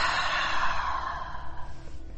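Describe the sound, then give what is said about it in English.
An exaggerated breath with a sloppy exhale, a single long, loud, airy rush of breath that trails off toward the end, heard alone. “just take a couple of exaggerated breaths, just a nice big inhale and a sloppy exhale.”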